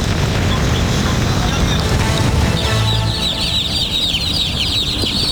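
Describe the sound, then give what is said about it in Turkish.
Chicks cheeping, part of 700 moved irregularly from Bursa and found at the Antalya intercity bus terminal; from about midway, many high, busy chirps rise over a loud, steady rushing noise. “Antalya şehirler arası otobüs terminalinde Bursa'dan usulsüz şekilde taşındığı tespit edilen 700 civciv bulundu.”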